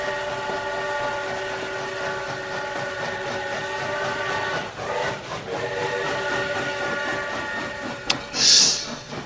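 A train carriage rolls on rails with a continuous rumbling roar and steady tonal whine, which dips briefly midway and ends with a short high squeal.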